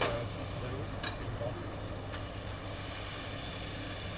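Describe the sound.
Cut potatoes sizzling in hot oil during the first frying for chips: a faint, even hiss that runs throughout, with a couple of tiny crackles.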